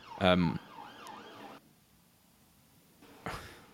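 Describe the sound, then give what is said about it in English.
An emergency vehicle siren passing outside wails up and down for about a second at moderate level, framed by brief louder bursts of other sound at the start and end. “with a siren in the background”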